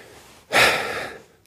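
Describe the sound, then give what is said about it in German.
A single forceful nose blow: one loud, breathy burst of hiss that tails off after less than a second, with no talking. “Ich müsste mir mal eben die Nase putzen.”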